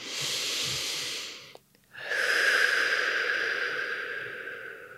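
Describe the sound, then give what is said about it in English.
A deep, slow breath: a long, airy inhale of about a second and a half, a short pause, then a longer, steady, hissing exhale that fades gently, with no talk. “So taking just one moment here, taking a deep and slow breath.”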